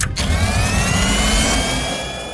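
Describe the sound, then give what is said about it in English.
Submarine engine speeding up into turbo: a loud, continuous whirring roar with thin tones that climb steadily higher, holding full strength throughout with no voices. “They're wrapping around the sub. Hang on. Going turbo.”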